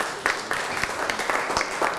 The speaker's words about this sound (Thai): ถูกต้องปรบมือให้เพื่อนหน่อยครับ